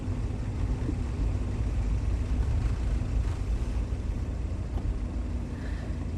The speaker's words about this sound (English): He swerves to the right around stopped cars and parks.